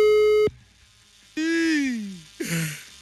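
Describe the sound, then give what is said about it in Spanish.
A telephone line tone sounds once for about half a second just after a number is dialed, a steady beep that cuts off and is followed by two falling, voice-like sounds. “Vamos a marcar en este preciso momento.”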